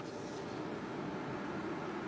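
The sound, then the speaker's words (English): A car driving through San Francisco gives off a steady road and engine rumble, an even, moderate drone without distinct events. “This is real car noise, not like the fake car noise they're peddling on the other broadcasts. It's only genuine driving.”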